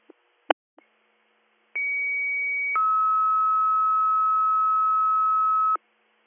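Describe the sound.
Fire department dispatch alert tones come over the radio for an Athens Township call: a few short clicks, then a steady high tone for about a second, followed by a longer, lower steady tone lasting about three seconds.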